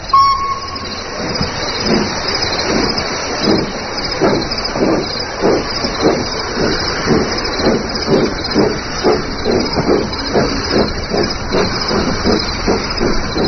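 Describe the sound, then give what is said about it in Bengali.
A train sounds its whistle in a short tone at the start and slowly pulls away. Many regular, rhythmic chuffs follow over a continuous loud hiss. “ট্রেনটা whistle বাজিয়ে আস্তে সুস্থে চলে গেল”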